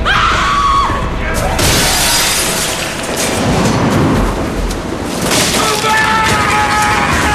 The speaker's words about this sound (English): runs towards one of the windows. He smashes it with a killing hammer and steps inside.